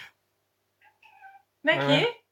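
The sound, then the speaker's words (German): An excited cat meows. A few faint, short chirping calls come first, then one loud, drawn-out meow with a clear tone. “eine verrückte Katze hier.”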